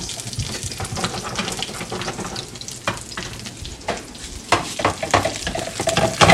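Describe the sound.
Food sizzles and spatters loudly in oily bacon fat, a constant hiss broken by scraping stirring strokes and bursts of crackle as it is stirred in the pan.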